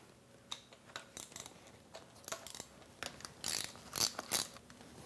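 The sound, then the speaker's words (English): A ratchet wrench loosening 9/16 intake manifold bolts during a small-block engine teardown gives off a faint run of quick, irregular metallic clicks and ticks, with a few sharper bursts toward the end. “To remove our intake manifold, we've got 12 of these 9/16 bolts to remove.”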